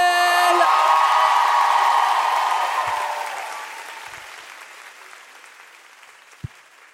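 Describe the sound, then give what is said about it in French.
An audience at a live show gives thunderous applause and cheering for a guest. A loud burst with a high cheer at the start slowly fades over several seconds into scattered, faint claps. “Est-ce qu'on peut faire un tonnerre d'applaudissements pour Julien Granet”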